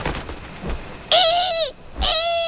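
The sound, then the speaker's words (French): A barn owl gives two drawn-out, harsh, tonal cries separated by a short gap; the first tails off with a slight drop in pitch. Faint, softer sounds come before the calls. “La chouette effraie déploie ses ailes de plus d'un mètre d'envergure et pousse sur ses pattes pour prendre son envol.”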